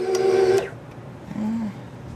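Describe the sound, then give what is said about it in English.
An electric mixer hums as it works batter in a kitchen: a steady buzzing tone lasts under a second, then cuts off, followed after a pause by a brief, fainter low hum. “The hum of the mixer fills the kitchen as it works the batter.”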